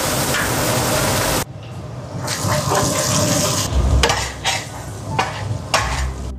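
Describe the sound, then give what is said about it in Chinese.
Scallion and ginger go into a hot pan of oil while cooking canned dace in black beans. A loud hissing burst gives way to a softer sizzle, with a few sharp clatters of stirring scattered through. “放入葱姜”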